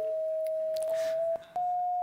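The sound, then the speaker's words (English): An electronic color sensor chip, heard through bone conduction, plays a steady, clean mid-pitched tone for the green of grass. A short break comes near the end before the tone returns. “For example, this is the sound of grass.”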